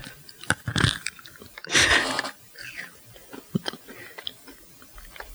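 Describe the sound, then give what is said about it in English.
Chewing Pez candy: quiet mouth sounds with two louder crunchy bursts early on, followed by many small faint clicks and smacks. “I'm up to three pez today. Eating now. People pez.”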